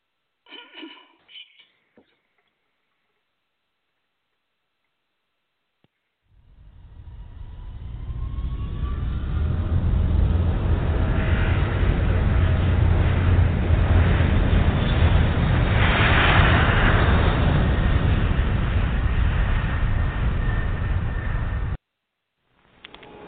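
Eastern Air Lines whisper jet airliner taking off: a roaring engine rumble builds up and holds loud and steady for about fifteen seconds, then stops abruptly, with a few faint noises before it begins.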